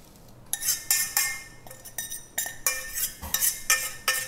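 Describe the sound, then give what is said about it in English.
Cooked mulberries are moved into a larger pan, with many sharp metallic clinks and scrapes of a utensil against cookware in an irregular rhythm and no talking. “So let me just transfer it to a larger pan.”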